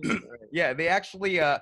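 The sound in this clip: A voice imitates Mongolian throat singing with a few short, gruff, buzzy vocal bursts rich in overtones, separated by brief gaps, fairly loud throughout.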